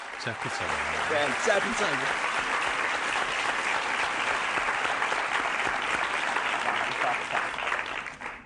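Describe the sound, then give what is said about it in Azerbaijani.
Audience applause at an Azerbaijani gathering: sustained, dense clapping that fades out at the very end. A voice speaks over it early on. “Alqışlayın məni.”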